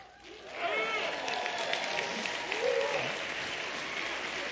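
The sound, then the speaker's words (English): Marines in an audience shout the Marine Corps call: many loud overlapping voices whoop and yell together over crowd noise, holding for several seconds. “How many of you know what that was that you heard there? The Marine Corps mating call. That's exactly what it was.”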